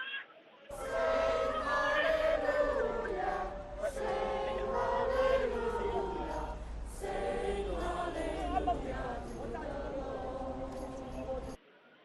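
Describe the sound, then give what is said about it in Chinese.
A large crowd sings hymns together at a prayer rally in Southorn Stadium, Hong Kong, the stands full, with massed voices holding steady, sustained tones for about eleven seconds before they cut off. “修頓球場的看台已經是坐滿了與會的人士，去唱聖詩和高呼香港人加油等的口號。聽一下當時祈禱會人士唱聖詩的現場情況。”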